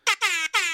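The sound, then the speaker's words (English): Jamaican air horn sound effect played from a phone app: three loud, bright, buzzy blasts, the first short and the next two longer, fired in quick succession. “The Jamaican air horn will never get old. I got an app, and I love it, and it's got some cool sound effects on it.”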